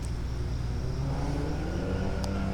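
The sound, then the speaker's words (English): Traffic on an interstate highway, a steady low rumble and wash of road noise that stays even in loudness throughout, with no voices. “I can hear a lot of traffic on the interstate.”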